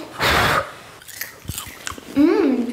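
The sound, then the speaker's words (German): Someone eats hot, freshly popped homemade popcorn made from blue-purple corn. A breathy blow comes first, then a few scattered crisp crunches and chewing, and a short vocal sound at the end. “Wir haben einen ganzen Topf voll mit selbstgemachtem Popcorn. Probieren wir.”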